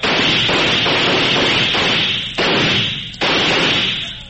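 Gunfire aimed at a barn with ammunition stored inside, a loud continuous roar of noise broken by two sharp bursts near the end, with no talk.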